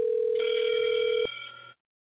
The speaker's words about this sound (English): I'm dialing the phone number for everybody who don't know what I'm doing.